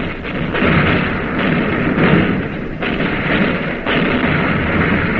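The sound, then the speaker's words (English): Heavy naval gunfire as shells strike an enemy cruiser: a loud, continuous rumbling roar of blasts with a few brief dips in level, and no voices. “Now the shells are hitting the enemy cruiser.”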